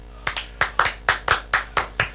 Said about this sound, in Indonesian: Kita akan standing applause kepada coach Leo.